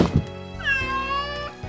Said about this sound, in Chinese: 这声音就是猫咪感觉舒服安心的声音。